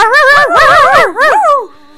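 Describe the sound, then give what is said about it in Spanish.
A dog's barks: three loud, yelping calls with strongly wavering, bending pitch, heard alone with no talking. “Y un ladrido para todas las perras de Laika sureñas.”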